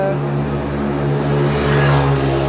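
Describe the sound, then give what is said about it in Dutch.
Mopeds riding around in circles, a continuous droning engine buzz that holds steady and swells slightly in loudness. “Houd niet op met die brommetjes hier. Ik weet niet wat dat is, maar goed. Ja. Ze doen het erom. Oh, dat wordt opgenomen. Gaan even rondjes rijden hier.”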